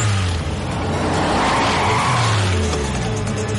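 Tires squeal as a burning van skids on the road. A loud, sustained screech runs over a roaring engine for the whole stretch, with no speech.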